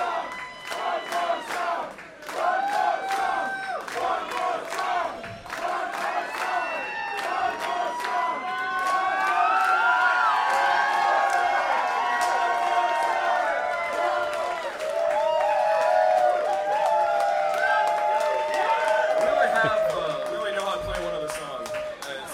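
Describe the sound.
A concert audience cheers and chants for an encore in a sustained roar of many shouting voices. The roar dips briefly near the start, then swells and holds loud.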